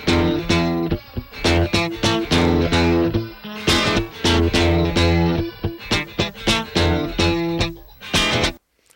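An isolated funk riff on electric guitar, with a slightly distorted tone, plays as many short staccato chord stabs in a tight, repeating rhythm, loud and alone with no voices.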